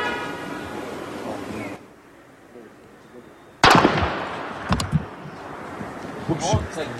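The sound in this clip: A SWAT team fires a single sniper rifle shot in recorded footage: one sharp, loud crack cuts in after a quieter stretch, followed by voices and some smaller knocks.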